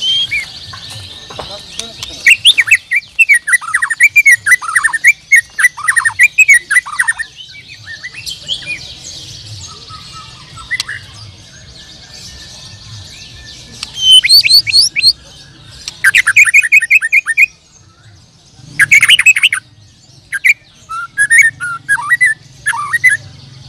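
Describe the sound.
Oriental magpie-robin birdsong: many bright whistles, chirps and rapid trills in varied bursts, some high and piercing, with short pauses between phrases.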